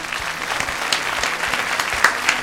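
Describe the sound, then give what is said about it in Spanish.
A packed audience at the Flumen theatre in Valencia applauds actors from a Friends stage show. The clapping is dense and steady, with a few sharper claps standing out. “Un gran aplauso, que se levante todo el público, los que están comiendo el bocadillo aún también”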